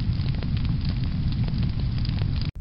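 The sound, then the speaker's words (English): Loud crackling of a fire burning after an explosion aboard a Black Hawk helicopter, a dense continuous roar studded with many sharp crackles that cuts off abruptly just before the end. “could hear a loud crackling of a fire”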